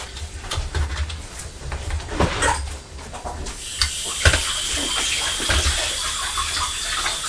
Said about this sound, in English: I'll just rinse this apple into the tap and then I shall let Purdy out.